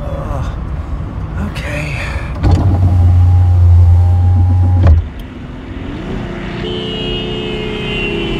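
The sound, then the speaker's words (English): A car driving fast on a dangerous road, heard from inside: a steady engine and road rumble throughout, with a loud, low motor whir lasting a few seconds midway. “Don't drive fast! This road's really dangerous. Don't worry, I'm a good driver.”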